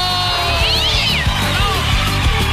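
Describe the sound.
A kitten meows in a drawn-out, wavering call, followed by a fainter second mew, over a steady background with low rhythmic thumps.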